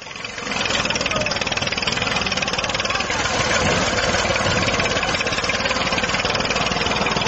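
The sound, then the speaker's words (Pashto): A tractor engine runs with a loud, steady rumbling drone while Taliban destroy a poppy field in Gereshk district, Helmand, with speech over it. “د هلمند ولایت د ګرشک ولسوالۍ په یوه ویډیوي کلیپ کې لیدل کیږي چې طالبان د ټرکټر او رینجر موټرونو په وسیله د کوکنارو یوه کرونده ویجاړوي.”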